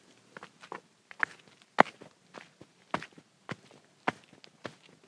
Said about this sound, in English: I'm going to let you listen to me walk here.